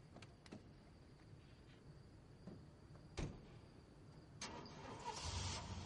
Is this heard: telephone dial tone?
no

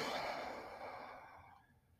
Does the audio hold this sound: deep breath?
yes

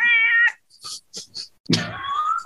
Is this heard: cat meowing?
yes

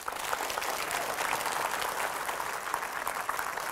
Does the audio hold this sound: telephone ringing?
no

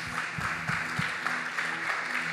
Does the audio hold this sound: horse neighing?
no

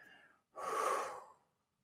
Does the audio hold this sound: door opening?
no

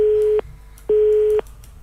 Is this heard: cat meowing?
no

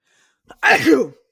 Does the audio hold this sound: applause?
no

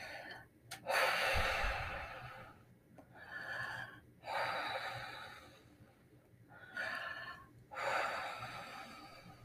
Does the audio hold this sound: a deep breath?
yes

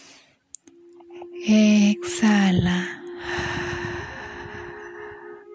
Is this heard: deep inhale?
yes

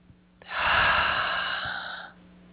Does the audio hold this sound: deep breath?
yes

